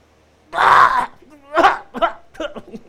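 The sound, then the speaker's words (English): A voice imitates snoring with two harsh, rasping snort-like bursts, followed by a few short, choppy vocal sounds. “Angela mentioned, do you know that you snore? No. And I think you have some breathing issues. Because sometimes you're like,”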